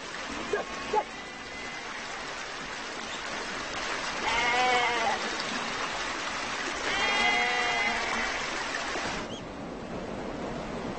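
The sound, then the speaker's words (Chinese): A flock of more than a hundred sheep and goats bleating while being herded, with a few wavering bleats rising out of a steady, noisy background and no clear talk. “他赶着100多只绵羊和山羊已经跋涉了一周。秋天之前他会一直在这里放牧羊群。”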